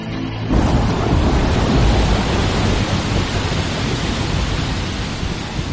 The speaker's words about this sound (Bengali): ঝড় থেমে গিয়ে বৃষ্টি নামল, চলল বেশ কিছুক্ষণ।